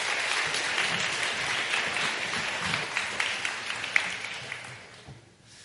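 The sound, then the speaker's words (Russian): Audience applause in a hall greeting two guests introduced at a public discussion, dense, even clapping that holds for about four seconds and then fades away. “Я с большой радостью представляю Юрия Сапрыкина и Антона Долина. Ваши аплодисменты.”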